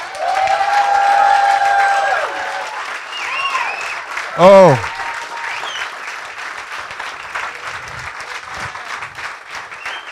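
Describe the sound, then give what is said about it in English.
A church audience cheers and applauds with sustained clapping and scattered shouts. A single loud whoop stands out midway, then the applause continues at a slightly lower level. “Now, can you make some noise for this?”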